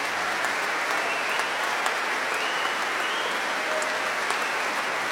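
Concert audience applause after an early-music performance featuring bassoon, serpent and viola da gamba: a dense, even wash of many hands clapping that holds steady and loud for the whole stretch without breaks.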